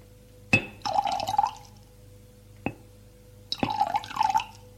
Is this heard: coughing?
no